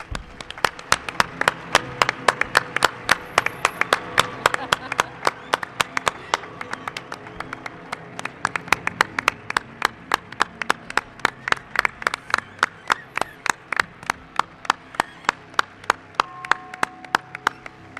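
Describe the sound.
Applause from a studio audience on a Spanish radio program, a steady run of loud, rhythmic hand claps lasting the whole stretch, with no voices over it.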